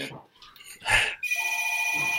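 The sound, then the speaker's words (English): An old-style landline telephone rings with a continuous, bright electronic bell after a brief moment of talk. “That is a landline. You guys, they have this phone that's from my childhood over there.”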